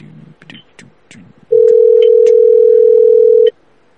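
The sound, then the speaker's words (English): A phone call placed through Google Voice rings out with a single steady ringback tone that holds for about two seconds, following a short stretch of quieter sounds. “Let me call this one through Google Voice so there's a caller ID they see. Hopefully the phone machine's working right here tonight.”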